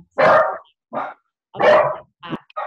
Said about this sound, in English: dogs are all in chorus now. I think they've both set each other off, haven't they?